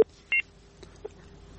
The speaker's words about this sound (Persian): تماسشان از دست دادم، قطع شد، دوباره تماس بگیرن